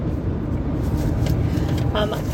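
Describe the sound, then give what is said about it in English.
Road noise inside a car driving between Williamsville and Watkins Glen, New York: a steady, loud low rumble of tires and engine that holds evenly throughout. “We are driving in our car between Williamsville and Watkins Glen, New York.”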